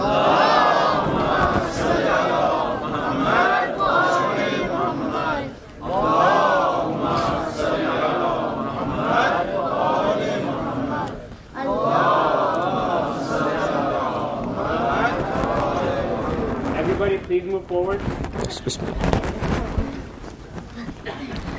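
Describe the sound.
An audience loudly recites salawat in unison, many voices chanting together in three long phrases separated by brief pauses, followed by a looser, more scattered stretch of voices at the end.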